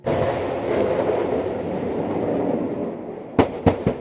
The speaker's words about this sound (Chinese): 这是台军的海马斯多管火箭系统成军以来首度实战化实弹射击操演。